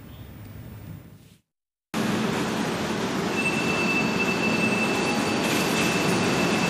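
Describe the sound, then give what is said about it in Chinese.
A high-speed train arrives at Nanjing South station. A brief drop to silence near the start gives way to a steady, loud rumble, and a thin, high wheel squeal then holds through the rest. “晚上18:41，高7256次列车抵达南京南站。”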